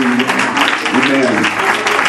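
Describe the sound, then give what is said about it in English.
A church audience claps during worship, a loud, continuous wash of many hands with voices and tonal sounds mixed in throughout. “Clap your hands unto the Lord in Jesus' name.”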